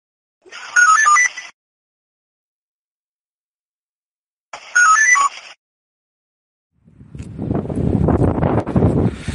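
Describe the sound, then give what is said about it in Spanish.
Strong wind blows as a rough low roar in the final seconds. Before it come two separated electronic telephone ring bursts with silence around them. “Hace mucho viento.”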